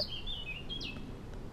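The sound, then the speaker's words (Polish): A common whitethroat sings a short, quick, scratchy phrase of faint, high chirps and slurred notes over steady background hiss. “Moim zdaniem to jest na tyle krótki śpiew, jednak na tyle dynamiczny, że kapturka śpiewałaby zdecydowanie dłużej. Tak. Tak, to jest moim zdaniem klasyczna cierniówka.”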